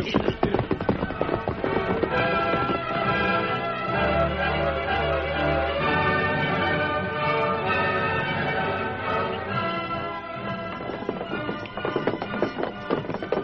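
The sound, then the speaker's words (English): Hoofbeats of a posse of horses galloping across a bridge: rapid, continuous clopping that stays loud and steady from start to finish. “the Lone Ranger and Tonto with a posse rode onto the bridge and started across”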